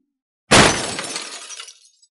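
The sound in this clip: A teacup thrown to the ground inside a military command tent shatters in a single sharp, loud crash of breaking china, followed by a bright ringing scatter of fragments that fades over about a second.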